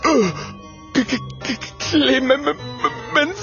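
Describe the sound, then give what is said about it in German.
A voice performs a ghostly wailing howl, a run of wavering, moaning cries that glide downward in pitch and rise and fall in loudness across several short swells. “In diesem Augenblick hören sie ein schauderhaftes Heulen.”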